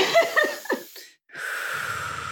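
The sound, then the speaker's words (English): A person takes a deep breath: a few short breathy puffs, a brief pause, then a long, steady, airy rush of breath, with no speech. “I'm going to take a deep breath. Just give me one.”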